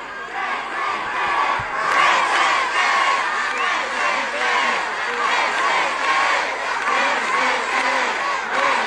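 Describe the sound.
Loud crowd chanting for Paraguay national team coach Gustavo Alfaro, drowning out the President of the Republic as he tries to speak; many voices chant together in a dense, steady roar with rhythmic swells.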